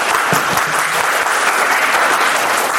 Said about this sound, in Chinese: 咱们鼓掌欢迎一下